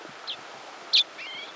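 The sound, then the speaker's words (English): Birds give a few brief, high, thin flight calls, faint chirps and a short whistle over a soft, hushed background. “These calls are thought to help birds keep in contact with each other and avoid collisions while in flight.”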